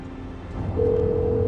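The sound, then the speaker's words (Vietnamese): A telephone ringing on an unanswered call: a steady electronic ring tone starts partway through and holds over a low background hum, with no voices. “Làm ơn nghe máy đi, Chúa ơi, làm ơn, làm ơn. Hãy nghe máy đi, hãy nghe máy đi, hãy nghe máy đi, nghe máy đi.”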